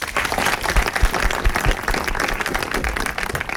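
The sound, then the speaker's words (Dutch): Audience applause greets guests at a film night screening event: dense, even clapping from a crowd that holds steady throughout without pause. “Mag ik alsjeblieft een warm welkom voor MC Noel 3, filmmaker Michel Poy en journalist Mandy Wolkens.”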